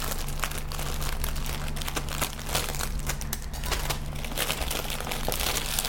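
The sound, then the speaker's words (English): Packaging is torn open with continuous crinkling and crumpling, and a few sharper rips stand out from the steady rustle. “Like, getting into the packaging is going to be the worst part for me. There we go. Rip it.”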